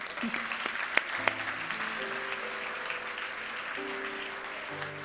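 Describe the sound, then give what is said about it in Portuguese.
Audience applause during a church service: a dense, continuous crowd clapping with a few sharper claps standing out early on, while steady low held tones sound underneath. “Podemos aplaudi-lo.”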